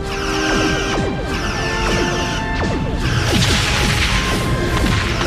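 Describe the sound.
Spaceship weapons fire in a Star Trek: Voyager space battle: loud, dense sweeping blasts and whooshing shots over crashing impacts and a steady electronic hum, continuing without pause.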